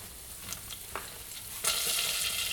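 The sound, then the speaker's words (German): A whisk stirs flour into water in a pan, soft scraping strokes giving way to a sudden louder, steady sizzling hiss partway through. “Und das Ganze mit dem Schneebesen immer schön verrühren. So, ich habe den Schneebesen. Jetzt kommen meine 3 Esslöffel Mehl rein.”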